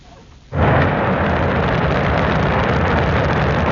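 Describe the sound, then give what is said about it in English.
China's Shenzhou 23 rocket blasts off from the launch center in Inner Mongolia. After a brief quiet moment, a sudden loud, broad roar erupts and holds steady and powerful to the end. “That's the sound of China's Shenzhou 23 rocket blasting off on Sunday from the Jingguan Launch Center in Inner Mongolia.”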